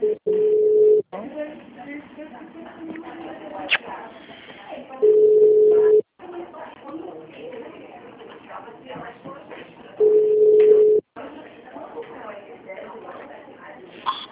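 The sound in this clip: Telephone ringback tone on a call placed to a bank customer: three steady, mid-pitched one-second tones spaced about five seconds apart, with quieter muffled background noise between them.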